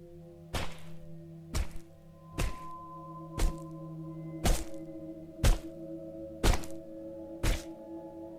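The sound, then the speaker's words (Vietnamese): Bones being chopped inside an apartment: eight heavy, evenly spaced thunks about a second apart, each a sharp, solid blow over a steady low hum. “Bất quá, từ trong căn hộ số 1054 lại có âm thanh chặt xương phát ra.”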